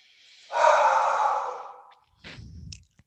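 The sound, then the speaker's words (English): Deep breathing during a guided yoga-style session on a mat: one long, loud, breathy rush of air lasting about a second and a half, then a shorter, lower, softer breath after a brief pause. “Breathe in. Breathe all the way out.”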